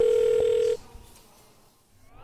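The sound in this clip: A telephone dial tone, a steady, pure hum, cuts off abruptly after under a second and leaves only faint line hiss.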